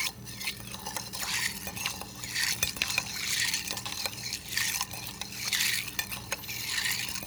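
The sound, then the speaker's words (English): Ice swirling and clinking as a cocktail with Angostura and Peychaud's bitters is stirred over ice: a steady run of many rhythmic rattling sweeps with bright glassy clinks, and no voices. “And we're doing all of that over ice. We'll give this a good stir.”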